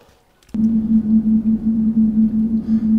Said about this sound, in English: that sound you just heard obviously indicates the wall is north.